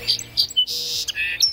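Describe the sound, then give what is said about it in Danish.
Song sparrow calls: a few bright, high chirps and short twittering notes, repeated in quick, uneven bursts with brief gaps, with no other sounds. “Det er lyden af en sangspurv, som er blevet set.”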